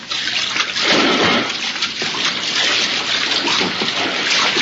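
Water splashing as a diver swims on the surface of a lagoon, heading toward its center; a steady, continuous wash of splashing and sloshing with no pauses.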